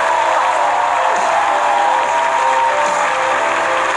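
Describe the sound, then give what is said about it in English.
Audience applause at a church service welcoming a pastor to the stage, a sustained, even wash of many clapping hands with crowd noise mixed in. “And let's put our hands together and welcome to the stage Pastor Jeremy Foster.”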